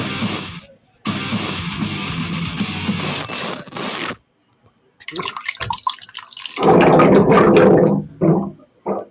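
Water runs from a tap in several bursts of different lengths: a short gush, a long steady rush, a pause, then sputtering spurts and a louder stream that cuts off, with no voices.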